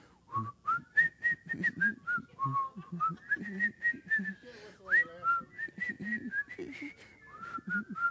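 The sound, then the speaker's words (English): A group of people whistling a familiar tune together, a bright, clear melody of many short and held notes that steps up and down in pitch, steady and fairly loud throughout. “if you can whistle, join me in this.”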